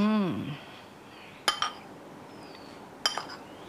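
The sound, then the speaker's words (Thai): A pestle gently pounds grilled fish mixed with shrimp paste, tamarind and sugar in a mortar. It makes two light, clinking knocks more than a second apart, each with a quick rebound tap. “ก็ตำเบาๆเขาให้เข้ากันนะคะ”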